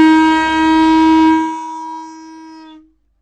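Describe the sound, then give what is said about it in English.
A starting horn at an Iron Age reconstruction museum sounds one loud, steady, low note rich in overtones for about three seconds. It thins after halfway and then cuts off. “Okay, that's the sound of a starting horn.”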